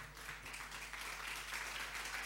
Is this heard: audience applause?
yes